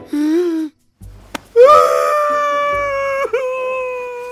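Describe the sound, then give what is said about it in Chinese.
A voice cries out in a comic audio drama: a short wailing sob, a brief gap, then a longer drawn-out howling cry that holds a high, tense pitch. The sound is loud and emotional, with no clear words. “别哭了，哎，朕也不勉强你。”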